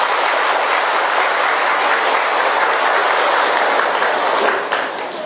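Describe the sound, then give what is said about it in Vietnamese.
Audience applause welcomes a Zen master at a gathering in Hanoi. It is a thick, continuous rush of many hands clapping, steady and loud throughout, easing slightly just before the end. “đề nghị toàn thể chúng ta vỗ tay biểu thị sự nhiệt liệt hoan nghênh”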